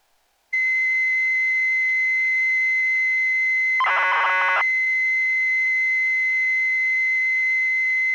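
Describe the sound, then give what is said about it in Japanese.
A Nintendo data recorder cassette plays a continuous, loud, high-pitched leader tone that holds steady throughout, broken near the middle by a short burst of warbling data chirps. “P の音が鳴ると同時にファンクションキー1番、F1 キーを押してください。”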